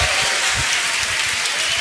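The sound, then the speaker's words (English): A church audience applauding loudly to welcome a preacher to the stage, a continuous, dense wash of clapping at a steady level throughout. “Whenever we get someone here, we give them a really big ovation. And so would you welcome Ken Shigematsu as he comes up to preach God's word today.”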